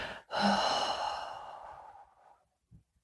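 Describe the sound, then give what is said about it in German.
A slow exhale through the mouth during a breathing exercise: one long, soft, breathy rush that fades gradually over about two seconds, then a faint short breath after a pause. “Atme tief ein. Halte hier kurz die Luft an. Und dann atme ganz langsam durch den Mund aus.”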